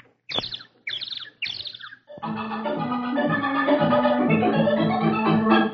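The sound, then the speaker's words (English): A newly hatched baby bird, just shaken free of its eggshell, gives three quick high chirps, then a long sustained musical chord swells and holds. “A little birdie coming out of his egg right outside Donald's window”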